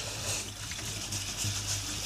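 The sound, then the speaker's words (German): Red lentils being rinsed under cold running water: a steady, full hiss of flowing water with a faint rattling texture, continuing without a break and with no voices. “würdest du für dieses Gericht quasi 200 Gramm rote Linsen nehmen. Die spülen wir jetzt hier einmal schön aus.”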